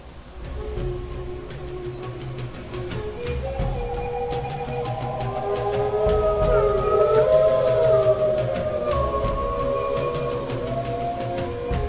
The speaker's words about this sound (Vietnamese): cho dù chưa từng gặp một con sói nào, cũng biết được đây là tiếng sói tru